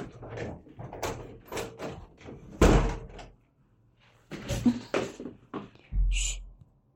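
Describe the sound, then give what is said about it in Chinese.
A door is shut with a single loud, heavy slam that stands out sharply, surrounded by softer bumps and shuffling noises before and after. “门关上。”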